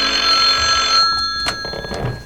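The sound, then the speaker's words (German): A telephone bell rings once in a bright, sustained burst that cuts off after about a second. A few soft clicks and handling noises follow. “Einige Stunden später klingelte bei Beefy Tremaine das Telefon.”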